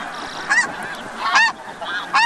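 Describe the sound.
Snow geese honk at their Arctic breeding grounds: three loud, nasal, harmonic calls in an even rhythm, with fainter honks in between and no voices.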